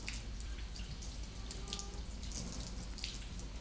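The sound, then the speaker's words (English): Water runs from a tap while the hands and forearms are rinsed during a surgical hand scrub: a quiet, continuous watery hiss with faint splashes and no talking. “So I'll rinse off.”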